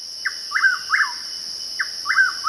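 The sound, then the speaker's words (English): A willow flycatcher hidden in a large shrub gives six short, buzzy, down-slurred calls in two groups of three over a steady, high insect drone. “A willow flycatcher, ensconced in a large shrub, makes short, darting flights to snap up insects without leaving the shelter of the greenery.”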